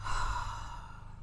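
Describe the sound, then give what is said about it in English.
A deep breath in a guided breathing exercise: one long, airy exhale that starts loud and slowly fades, with no talking. “Let's start with our breath. Let's breathe together three times. Inhale love and exhale judgment.”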